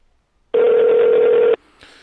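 A single long ringback tone on an outgoing telephone call, a loud, steady buzzing note lasting about a second before cutting off abruptly into faint line hiss.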